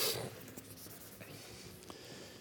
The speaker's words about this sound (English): Okay, let me erase this, if it will.